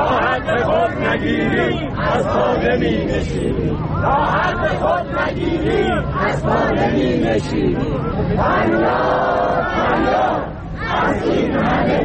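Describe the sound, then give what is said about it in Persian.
Protesters at a rally demanding pension increases and the release of jailed activists chant slogans in unison. Many loud voices keep up a rhythmic, sustained chant without a break. “آنها از جمله شعار دادند:”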